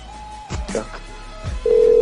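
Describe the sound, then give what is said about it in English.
A telephone number being dialed for a hotel call: a thin steady tone fades out, then brief clicks and voice-like sounds follow, and a loud, steady tone holds through to the end. “Got to dial the numbers first.”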